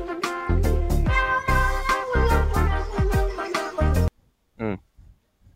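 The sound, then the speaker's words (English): A cat makes an unusual talking-like vocalization, a long run of warbling, chattering harmonic sounds with shifting pitch, followed by a brief silence and one short final call. “How is this a real cat sound? And how have I lived all these years of my life never knowing that cats make this sound? Yeah, it's like talking.”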